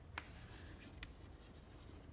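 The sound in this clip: Faint scratching of pseudocode being written on a board during a recitation class, a few brief strokes scattered over a steady low hiss, ending with a slightly sharper mark, with no talking.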